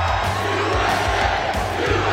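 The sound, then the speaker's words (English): Crowd cheering and shouting, a loud, dense, continuous roar of many voices that holds steady throughout. “Wow, this is a nice crowd.”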